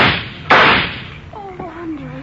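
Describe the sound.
A single gunshot in a radio drama, a sharp, loud crack that bursts over a steady background hiss. A brief voiced cry follows it.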